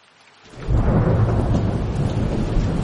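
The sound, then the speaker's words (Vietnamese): Heavy rain and thunder lash against a café's floor-to-ceiling window in a sudden afternoon downpour. A dense, low rumbling roar swells in after a brief quiet moment and then holds loud and steady. “mưa to bất chợt đổ xuống hắt vào cửa sổ sát đất, phát ra âm thanh chói tai.”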